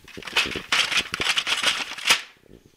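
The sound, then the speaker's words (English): Sharp plastic clicks and rattles of a cassette tape being handled and flipped over, arriving as a quick, irregular series of clacks that ends with a faint, brief scrape. “Guys, I think the tape's starting to run a little low. Oh, flip that tape over.”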